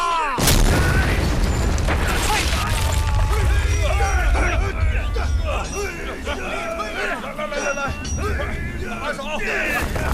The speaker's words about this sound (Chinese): 我们的故事从无锡山里剔矿的开采开始。 使劲啊，放炮啦！